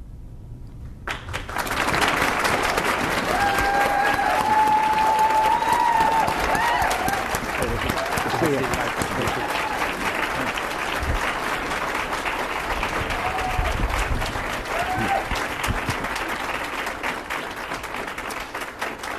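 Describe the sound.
A live debate audience at the University of Dayton, Ohio, applauds the two candidates as they are welcomed onstage: dense, sustained clapping that starts suddenly, holds steady for well over fifteen seconds, then slowly thins.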